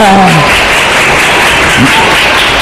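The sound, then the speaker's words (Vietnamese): Audience applause at a Buddhist lecture given by a monk: loud, dense clapping that fills the whole stretch, with a voice briefly heard over it at the start. “Vỗ tay chúng sen hồng trước đây đã.”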